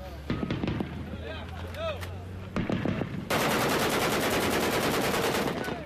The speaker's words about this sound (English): Well, what you're hearing there could be a bit of happy fire. We get a lot of that. Could be people testing weapons. Could be somebody who's seen a target.